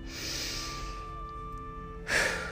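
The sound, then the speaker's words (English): A deep breath: a long airy inhale, a quiet pause, then a short, sharp burst of breath. No talk is heard over it. “wherever you are, I would invite you to take a deep, deep breath”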